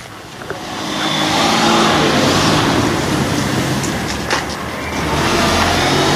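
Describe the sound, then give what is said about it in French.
A Porsche drives along a street, its engine building to a steady roar and holding loud for several seconds with no voices over it. “Ah, quand même une petite Porsche.”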